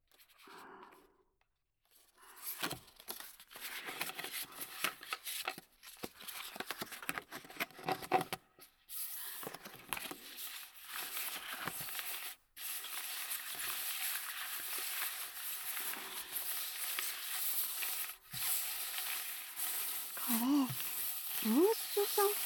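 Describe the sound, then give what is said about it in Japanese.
Playing cards are spread out and shuffled on a table for a fortune reading, making a dense, continuous rustling and scraping that runs almost the whole time with a few short breaks. “じゃあカードをばらしてシャッフルしながら並べていくよ。”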